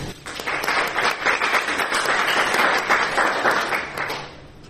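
Steady applause from a class audience, a dense patter of many hands clapping together, holding at an even level before easing off at the end.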